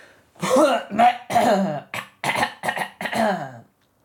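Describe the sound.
A person with a sore, rough throat coughs and clears their throat in a run of several hoarse, voiced bursts of uneven length, fairly loud and with no other sound.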